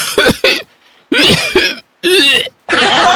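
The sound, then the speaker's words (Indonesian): An elderly man's harsh, throaty coughing, performed by a storyteller, comes in several loud bursts separated by short gaps. Some fits sound rough and strained, like clearing the throat, and the final burst is noisier and more breathy. “Atuh harita teh cegoh, Aki Ganteng teh batuk tuluy ongkek.”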